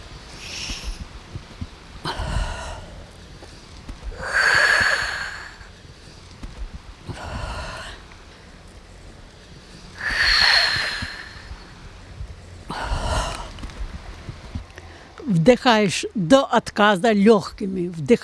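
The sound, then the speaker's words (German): Three deep breaths in and out before going into the water, each a loud, airy inhale followed by a drawn-out exhale in a slow, even rhythm. A voice follows at the end. “Man muss dreimal tief ein- und ausatmen.”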